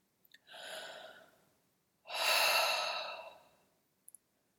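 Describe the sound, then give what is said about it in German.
A person breathes deeply and relaxedly through an open mouth while sitting with a loosely upright spine, giving two long, soft, airy breaths, the second fuller and louder, with tiny clicks before and after. “lass dich erstmal ankommen in deinem Atemrhythmus mit geöffnetem Mund. Nimm erstmal entspannte Atemzüge.”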